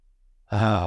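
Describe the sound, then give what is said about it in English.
One deep breath taken during a guided relaxation exercise, heard as a single soft, voiced sighing exhale of about half a second that follows near silence. “And just take one deep breath in.”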